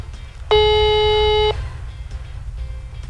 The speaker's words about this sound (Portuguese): Ligando aqui agora. Chamando.